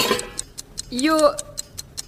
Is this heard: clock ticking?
yes

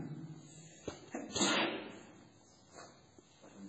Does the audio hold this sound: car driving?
no

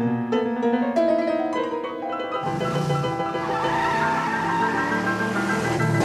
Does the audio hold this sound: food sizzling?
no

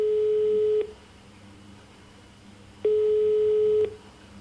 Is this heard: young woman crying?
no

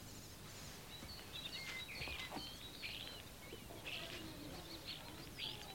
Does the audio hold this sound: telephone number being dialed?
no

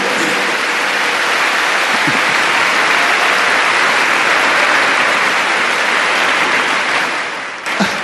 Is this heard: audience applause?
yes

